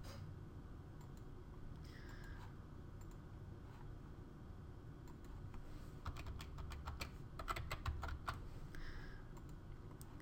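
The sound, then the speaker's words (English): Keystrokes on a computer keyboard as CAPM is typed into spreadsheet Solver constraints: a few faint scattered taps early, then a quick, dense run of clicks later, over a steady low background hum. “We just replace HIST with CAPM. We want to change our constraints. So we type CAPM.”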